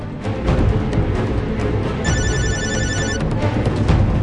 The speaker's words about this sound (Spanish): En ese preciso momento, sonó su celular, que evidenció su presencia.